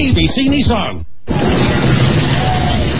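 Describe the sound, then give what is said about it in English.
Riders on the roller coaster and the Big Shot ride high atop the Stratosphere tower in Las Vegas let out loud voices and shrieks. After a brief gap, a continuous roaring rush of noise follows. “That's the sound of people riding the roller coaster and the Big Shot high atop the tower of the Stratosphere in Las Vegas.”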